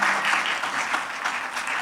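Audience applause welcoming a guest to the stage, a steady, even wash of many hands clapping throughout.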